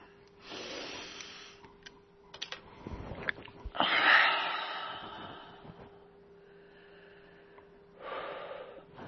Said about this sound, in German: Einatmen, ausatmen, weit werden.